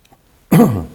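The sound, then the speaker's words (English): A single loud cough during a talk: a sharp burst that goes into a rough, voiced rasp and fades away. There is no other sound before it. “that magnifies when I cough, doesn't it?”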